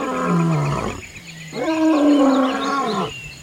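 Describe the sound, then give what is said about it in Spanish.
A lion roars: two long, deep, loud calls separated by a brief pause, with no talk over them. “Y al oír la voz de león,”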